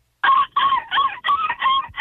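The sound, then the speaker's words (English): A person imitates a seagull call in a seagull-calling contest, giving a rapid run of loud, nasal, squawking cries in even succession. “Real seagulls. Seagull calling contest.”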